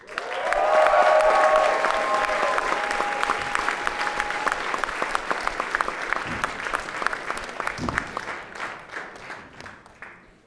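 Audience applause welcoming a band from Duluth at a music fest: loud clapping and cheering burst out at once, with a long sustained whistle over them early on, then thin gradually into scattered claps by the end.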